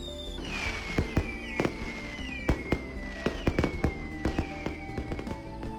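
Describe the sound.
Fireworks exploding: many sharp, loud bangs in an irregular burst, with whistling rockets whose pitch slides downward between the blasts.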